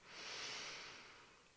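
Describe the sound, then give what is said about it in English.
A slow, deep breath in during a guided breathing exercise: a soft, airy rush that swells quickly, holds, then gently tapers, heard alone without talk. “by taking a nice deep breath in and out. One more in”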